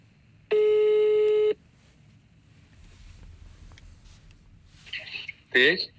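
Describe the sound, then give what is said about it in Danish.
Outgoing phone call ringing: one steady buzzing ring tone lasting about a second, then a quiet open line, and a voice answers at the end. “Skal vi lige prøve at høre Svirchenko, om vi kan fange ham direkte her i studiet? Lad os prøve. Jeg giver ham et kald.”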